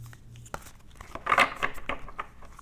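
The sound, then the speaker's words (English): An oracle card is drawn from a deck with a faint papery rustle and slide: a few soft, crisp bursts of card friction, quiet and with no voices. “So I'm going to pull an oracle card for you just to see what it says for the fun of it.”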